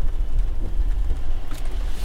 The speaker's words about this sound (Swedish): Precis när vi valde att köra ut från lastbilsparkeringen.